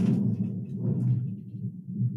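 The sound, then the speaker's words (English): Low, rolling thunder rumbles on without a break, a dull, bass-heavy roar with gentle swells and no talking. “Oh, shit. Was that rain? That's thunder. Holy crap.”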